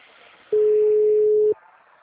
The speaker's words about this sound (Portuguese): Aí, tá chamando agora.